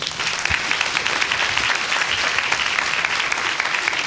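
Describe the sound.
Audience applause welcoming a speaker onto a stage: dense, steady clapping from a large crowd that holds at an even, loud level from start to finish.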